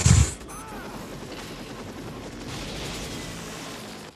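A single loud gunshot in a film scene, a sharp blast at the very start that drops at once into a low, steady rumble of background sound.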